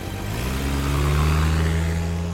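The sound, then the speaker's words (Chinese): A car engine revs hard as the car speeds out of a garage. The loud, steady roar has a low drone that climbs in pitch early on and then holds. “尤耀天马上踩下油门。开着忍者龟冲出了车库，”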